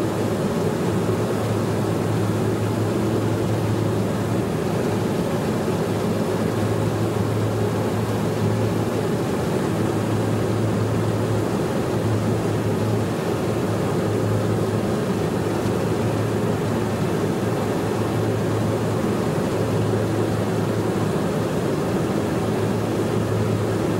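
An aircraft in flight gives a loud, steady droning roar with a low hum underneath. It stays even and unchanging for the full length, with no voices.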